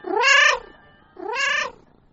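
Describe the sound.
A cat meows twice, each a loud, clear meow that arcs up and then falls in pitch, separated by a short pause.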